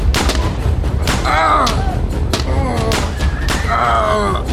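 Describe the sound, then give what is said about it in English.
Gun-like shots of rubber bullets fired as baton rounds, a series of sharp booming bangs at uneven intervals, with shouting voices between them. “Get out the baton rounds. I don't know, James. Just do it! Ready? Aim! Fire!”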